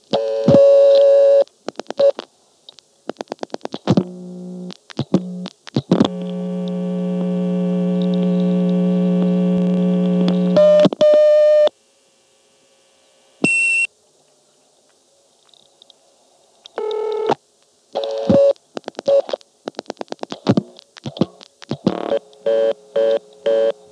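Telephone reorder tone after pulse-dialing 3611 twice on a vacant 563 exchange level, following a hang-up on the operator: bursts of rapid dial clicks, a long steady hum, a short silence, then rapidly interrupted tone bursts and more clicking.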